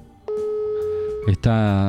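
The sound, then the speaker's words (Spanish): Telephone line tone on a call being placed to New York: a single long, steady, even tone that holds for about a second before a voice cuts in at the end. “Tratando de hacer comunicación con Victoria Estrada, escuchamos el sonido del teléfono.”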